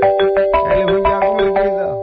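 A telephone rings with a loud electronic ringtone of rapid, repeating tonal pulses in a steady rhythm that fades slightly toward the end.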